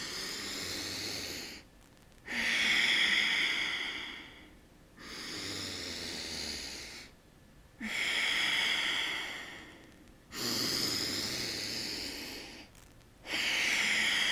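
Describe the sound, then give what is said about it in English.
Slow breathing during a breathing exercise: several long, airy breaths, fairly loud, each followed by a short pause, in an even rhythm with no voices. “And then a breath in like that.”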